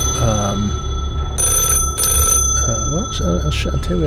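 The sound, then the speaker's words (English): An old black wall telephone rings in repeated bright metallic bursts while several people talk over it. “I'm going to push past the lads and answer the phone”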